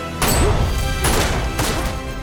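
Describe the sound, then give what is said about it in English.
Three loud gunshots ring out in the 2017 film Happy Death Day, each a sharp, heavy crack followed by a lingering rumble, the shots spaced unevenly across about two seconds. “Tree shoots and the bullets send Tombs reeling back.”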